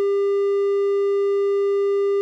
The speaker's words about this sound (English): Now, a triangle wave.